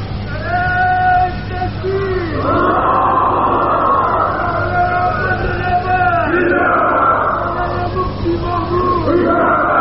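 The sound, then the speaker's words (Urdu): A crowd of voices chants slogans together at a speech gathering. The chant is loud and continuous for nearly ten seconds, swelling and easing in waves. “یہ کوئی نعرہ نہیں، یہ کوئی نعرہ نہیں ہے جو آپ نعرہ لگا رہے ہیں.”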